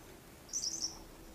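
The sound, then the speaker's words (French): Faint birdsong at the edge of a forest beside a plateau: a brief, high chirping burst lasting under half a second, barely rising above a steady low background hiss. “où quelques éclats de chants d'oiseaux à peine perceptibles rebondissent ici.”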